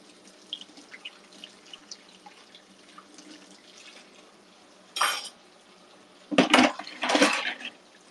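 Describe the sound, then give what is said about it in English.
Dishes being washed at a kitchen sink. Faint clinks of plates and cutlery come first, then a few loud bursts of water running from the tap, with rushing splashes between the clatters. “I'll end after I finish the dishes.”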